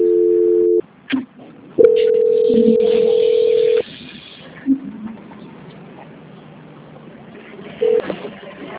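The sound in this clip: Telephone line tones mark a call being transferred: a steady tone, a longer two-second tone, then a short beep, with clicks and low line hiss in between.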